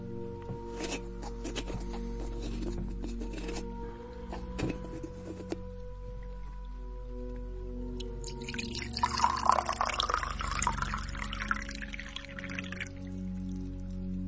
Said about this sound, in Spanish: Voy a servirte un vasito de agua para que le puedas dar tragos cuando lo necesites.